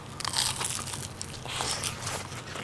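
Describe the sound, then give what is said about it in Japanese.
A crisp, crackly crunch as someone bites into an inari pizza of fried tofu pouch and cheese topped with oil sardines and olives, dense and steady for a couple of seconds with no talk. “カリッとしてますねもうね、はい、手で持っていただきます”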